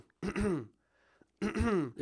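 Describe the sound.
A person clears their throat twice, as a nervous habit rather than from dryness. Two short, voiced, rasping bursts are separated by a near-silent pause.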